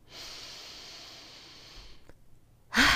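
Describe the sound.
A deep breath: a long, steady inhale of about two seconds, a short pause, then the start of a louder, forceful exhale at the end, with no talking.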